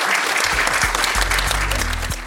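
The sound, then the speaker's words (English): An audience applauds the guests at the close of a conversation event, a loud, even round of many hands clapping that carries through the whole short stretch. “Just like to ask the audience to give our guests a round of applause.”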